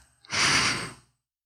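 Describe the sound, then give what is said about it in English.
One deep breath, a soft airy rush that swells quickly, holds for under a second and fades out, heard alone without talk. “And so I'll breathe in.”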